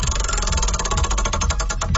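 Rapid ticking of a spinning prize wheel during a game segment: a dense, steady rattle of clicks runs through the whole stretch, loud and with no talk over it.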